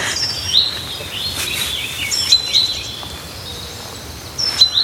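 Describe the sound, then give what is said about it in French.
Calls of chaffinch, great tit, blue tit and crow: many short, high chirps and tweets come in scattered bursts over a steady hiss, fairly faint throughout. “Et puis, il y a le pinson qui est là. Là, on a tout, hein. Charbonnière, bleu, pinson, corneille.”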